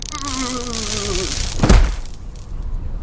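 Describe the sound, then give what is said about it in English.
Buzzing electric crackle of a taser hitting Thor in the 2011 Marvel film Thor, with a falling cry under the buzz and then a heavy thud. “Thor gets tasered in the 2011 film there. Thor, Marvel film.”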